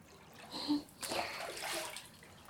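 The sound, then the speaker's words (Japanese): Splashing hot water as a bath bucket scoops from a pot bath: a soft slosh, then a broader wet splash and swirling water that fades out. “まずは湯桶に壺湯のお湯をたっぷりすくって”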